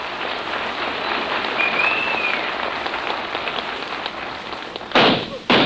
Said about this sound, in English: What are you shooting at? We haven't sighted any game yet. It says in my hunting book, if you get cold, take a couple of shots.